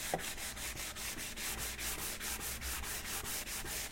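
Dry hand sanding rasps in a long run of quick, even back-and-forth strokes. The rhythm is steady and fairly loud throughout, with no voices.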